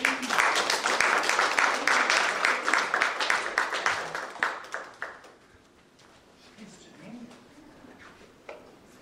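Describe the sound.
Audience applause welcoming a speaker, dense clapping that tapers off after about five seconds before a single voice starts talking.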